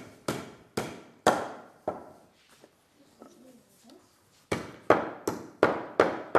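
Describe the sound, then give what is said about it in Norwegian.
Hammer blows driving nails all the way in during a family church service: about four sharp strikes, a quieter pause with soft voices, then about six more strikes in a steady rhythm. “når vi holder litt avstand, da, så kan du begynne å hamre. De skal helst, helst helt inn.”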